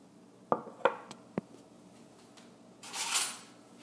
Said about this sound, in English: And I'm stirring my tea. So that the sugar